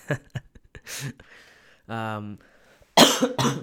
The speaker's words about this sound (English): I still can't laugh like a lot. I start coughing.